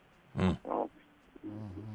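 Two short, rough pig-like grunts in quick succession, fairly quiet, followed by a brief low voiced sound.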